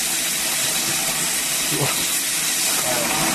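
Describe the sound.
Grill flames flaring up under a thick piece of meat at an outdoor grill shelter, a loud, steady roaring hiss that holds level throughout.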